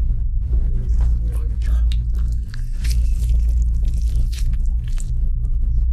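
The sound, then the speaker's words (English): An orange being opened and its peel torn away by hand, giving many small, moist crackling and squishing tears over a steady low hum. “We're currently opening an orange.”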